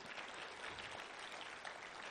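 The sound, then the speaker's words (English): A church audience claps through a morning service, producing a dense, even wash of applause that holds steady and faint for the whole stretch, with no talk over it. “if you're going to clap this morning, don't mess around.”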